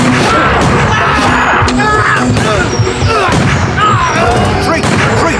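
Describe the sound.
Gunfire bursts out in a loud, dense barrage of sharp cracks and booms, with voices shouting over the continuous chaotic din.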